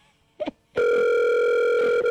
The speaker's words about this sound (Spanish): Y llama May.